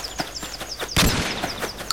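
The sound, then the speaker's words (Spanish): Gunfire from an enemy in a video game: a few sharp shots, with one louder burst near the middle followed by a brief dense rattle. “me alejo del enemigo que me está disparando.”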